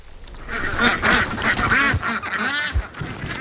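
Farm ducks quack loudly in a continuous, overlapping chorus of nasal calls with no pauses.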